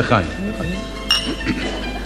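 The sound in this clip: Glasses clink together in a toast at a meal, one bright ringing clink rising over steady conversation from several people talking around it.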